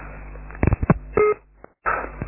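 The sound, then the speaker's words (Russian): Telephone keypad tones sound as a number is dialed to call someone back. A quick run of short beeps is followed by a longer steady tone and one brief beep, with the thin, narrow sound of a phone line. “Да, ну давай, сейчас я тебе перезвоню, чтобы ты взял трубку.”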